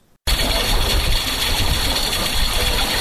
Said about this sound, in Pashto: دغه غږ د اوبو څاڅکي سیستم دی چې د انرژي یا اوبو د ضایعاتو د مخنیوي لپاره یو مرجنه چاره بلل کیږي.